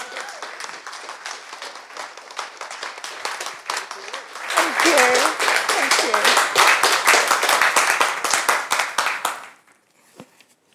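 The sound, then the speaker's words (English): An audience applauds to welcome a guest speaker, many hands clapping steadily and swelling louder around the middle, then dying away near the end into near silence. “So let's give a warm welcome, because it's a delight to have Suzanne speak to us today.”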